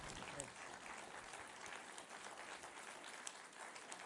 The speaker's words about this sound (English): let's just give a hand to our panelists and thank them.